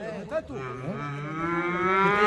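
A calf at a bullfighting school practice class lets out one long, drawn-out moo. The low bellow holds a steady pitch and grows slightly louder toward the end.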